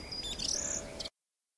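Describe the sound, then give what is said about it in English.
Birds sing in a winter forest: a quick run of high, sweeping chirps and tweets over a faint background hush, lasting about a second before stopping abruptly. “Let me listen to the sounds of the forest. I love to hear the birds sing.”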